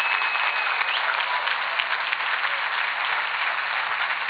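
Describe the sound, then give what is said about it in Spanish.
Thin, steady applause from a church audience during a sermon, a continuous flat patter of light clapping without peaks or cheers, moderately quiet and sustained throughout. “Le falta hemoglobina ese aplauso a usted.”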